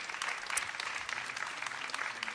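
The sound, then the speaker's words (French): Audience applause welcoming a guest before a question session, a continuous wash of many hands clapping at a steady, fairly loud level from start to finish. “Merci de l'applaudir avant qu'il commence.”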